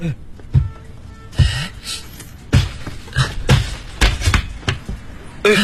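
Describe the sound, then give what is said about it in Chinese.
A ceiling panel is pushed open in a series of many hollow thumps and knocks, coming in irregular bursts with short quiet gaps between them. “这个天花板可以打开吗？ 我不知道，我从来没有打开过。 那我试试看啊。”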